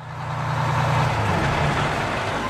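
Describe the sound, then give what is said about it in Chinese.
A city bus pulling up at a stop gives a dense, continuous engine rumble with a low hum underneath, loud and steady throughout. “一辆公共汽车在一个站牌跟前停了下来，车门打开”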